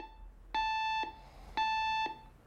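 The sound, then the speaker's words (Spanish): An alarm clock goes off at 7 in the morning in a modern bedroom: two identical electronic beeps, each about half a second long, separated by a short gap, faint and alone. “El despertador marca las 7 de la mañana. Lo apaga.”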